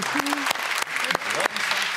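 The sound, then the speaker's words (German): Applause on a game show: dense, steady clapping throughout, with speech-like harmonic traces over it. “Wann hast du von deiner eigenen Frau das letzte Mal so viel Applaus gekriegt?”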